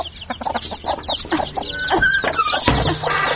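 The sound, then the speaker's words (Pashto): A hen clucks after hatching her chicks, giving many short, busy clucks in quick succession with some higher chirping calls mixed in, fairly loud and continuous throughout, with no talking. “ته راشه چې چرګې دې بچي ایستلي.”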